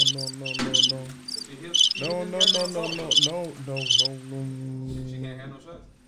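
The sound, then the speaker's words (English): Crickets chirping as a comic sound effect during a drinking game, in many bright, rapid pulsed bursts repeating over a steady, humming tonal background. “Crickets are still playing.”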